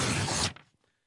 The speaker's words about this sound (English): Let me just open up the envelope.